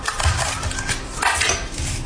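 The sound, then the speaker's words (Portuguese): Knife scraping light, low-fat butter across a piece of toast, a run of dry rasping strokes with soft clicks and brief pauses, fairly steady in level. “Uma torradinha, por exemplo. Temos aqui uma torrada. Vamos pôr manteiga.”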